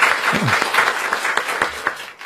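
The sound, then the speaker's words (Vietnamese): Warm applause from a church audience greeting one another at a feast-day service: brisk, dense clapping from many hands, steady and fairly loud throughout the short stretch. “Chúng ta hân hoan chào nhau và chúc mừng nhau một tràng pháo tay nồng nhiệt, thưa anh chị em và các bạn.”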